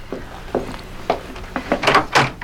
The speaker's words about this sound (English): You may answer the door now, Miss Harker.